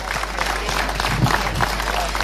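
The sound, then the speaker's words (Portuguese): Applause from an audience at a formal evening event honouring a municipal council president: dense, steady clapping that fills the whole moment without a break. “para quem peço uma enorme salva de palmas”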